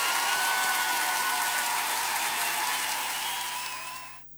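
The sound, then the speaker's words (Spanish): Applause for the guests: a loud, dense, continuous clatter of many hands that holds steady before fading out quickly at the very end. “Un aplauso para ustedes, muchachos.”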